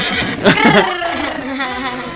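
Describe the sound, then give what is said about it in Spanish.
A voice imitates a horse's neigh, a wavering, warbling whinny that lasts about two seconds and peaks midway before trailing off into a lighter, laugh-like tail. “El caballo. El caballo. ¿Cómo hace el caballo?”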